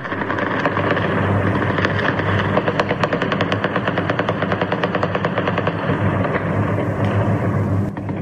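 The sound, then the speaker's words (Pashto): Celebratory gunfire rattles across Kabul at night as US forces withdraw, with many rapid shots rolling in dense overlapping bursts that keep a steady, loud, crackling rhythm throughout. “مجاهد په خپل ټوټرو لیکل په کابل ښار کې د ډزو غغونه د خوشحالي دي”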